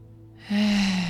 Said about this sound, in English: taking some big, beautiful breaths in through the nose,